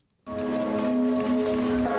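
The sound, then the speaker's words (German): Church bells ringing across France in memory of attack victims: a sustained metallic tone with several steady ringing partials that starts abruptly and holds without fading. “Um 15 Uhr läuteten die Glocken sämtlicher französischer Kirchen.”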